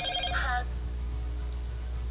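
A WhatsApp phone call rings in one short, bright, high burst near the start, then cuts off, leaving only a low steady hum.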